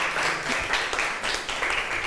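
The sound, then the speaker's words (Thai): Students in a classroom clap for a classmate, a steady burst of dense, moderately loud applause that lasts throughout without a pause. “จบแล้วปรบมือให้เพื่อนหน่อยค่ะ”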